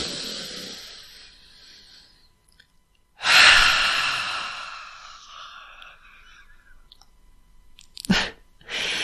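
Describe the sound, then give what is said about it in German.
A deep, deliberate breath: a loud, breathy rush of air that starts suddenly and fades slowly over a few seconds, with quieter breathing before it and short breath sounds near the end. “Komm, wir nehmen mal zusammen einen tiefen Atemzug.”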